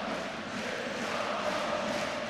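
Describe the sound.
Football fans of 1. FC Köln chanting in the south stand (Südkurve) during a match, heard as a dense, continuous crowd roar that holds steady at a fairly even loudness throughout.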